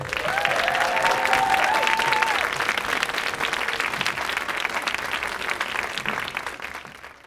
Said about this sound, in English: Now, please give a warm welcoming hand to two stars from Downton Abbey, Hugh Bonneville and Rob Jabes Collier.